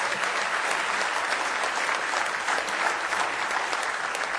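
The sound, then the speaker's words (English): An audience claps during a church service. The applause is even and continuous, a soft wash of many hands throughout with no voices standing out. “Give those folks a nice hand if you would.”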